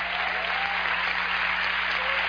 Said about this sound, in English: I say you ought to clap. If you can clap, let everybody clap.